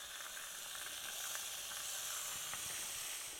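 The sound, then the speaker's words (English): Bacon sizzles in a pan over low to medium heat, a steady, even frying hiss that holds at the same level throughout with no voices. “All right, so the bacon's starting to cook down a little bit here, and so I'm going to put this on low to medium heat.”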